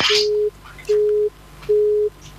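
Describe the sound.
A telephone busy tone follows a caller's line dropping during a call-in to a radio programme: three steady mid-pitched beeps of equal length, evenly spaced with short silences between, alone and clear.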